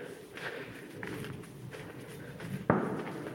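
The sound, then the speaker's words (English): A single sharp gunshot from someone shooting in the Wiltshire countryside cracks out once over a quiet, steady background of faint rustling. “Someone's out shooting. There's always someone out shooting in Wiltshire.”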